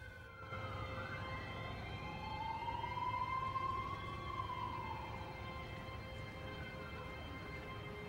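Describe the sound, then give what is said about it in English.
An ambulance siren wails, one slow tone sweeping upward and then easing back down, steady and continuous over a low rumbling background. “Sean watches as the ambulance takes Alice to hospital”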